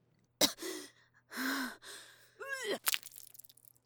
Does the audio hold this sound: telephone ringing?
no

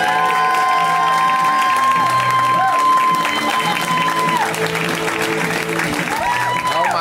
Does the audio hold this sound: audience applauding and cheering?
yes

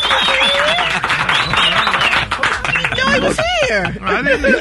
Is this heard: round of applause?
yes

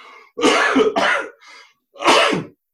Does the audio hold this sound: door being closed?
no

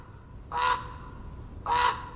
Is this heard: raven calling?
yes

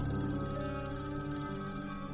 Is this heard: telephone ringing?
yes

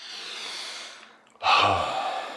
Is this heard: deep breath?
yes

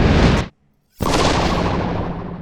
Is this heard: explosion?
yes

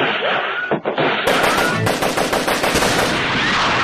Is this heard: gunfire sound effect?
yes

